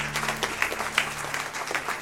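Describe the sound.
An audience claps hands in praise to God at a church service: dense, fairly soft clapping that runs without pause for the whole stretch, over a steady low hum.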